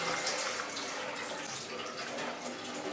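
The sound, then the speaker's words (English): Soaking water is poured off lentils that soaked for several hours, making a faint, continuous watery splash and trickle with no pauses throughout. “And after that, we should put all water outside like this.”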